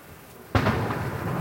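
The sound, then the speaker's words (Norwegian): A single cannon salute shot during a royal funeral procession in an Oslo street, a sudden heavy boom breaking a brief quiet, then a loud rumbling tail that lasts to the end. “I det kanonskuddene drønner”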